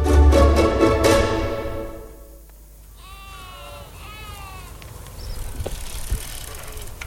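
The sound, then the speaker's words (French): A bicycle arrives in a small village, ridden by a young lad, opening with loud ringing tonal bursts that fade, then softer wavering tones and light rattles over a low background. “Un petit gars arrive à bicyclette, un béret sur la tête et un appareil photo autour du cou.”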